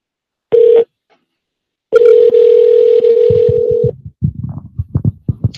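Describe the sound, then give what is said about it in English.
A phone number is dialled on a touch-tone phone: a short beep, then a longer steady tone, then a quick run of many short, loud keypad tones and clicks. There is no talking. “Let's make this phone call.”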